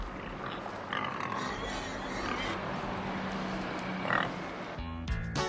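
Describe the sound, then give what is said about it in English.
Grunts and oinks from a herd of pigs foraging in a brown field across a highway from an inn. The snuffling is rough and continuous, with occasional louder squeals over steady background noise. “In the morning, a herd of pigs forages in a brown field across the highway from the Braidwood Inn.”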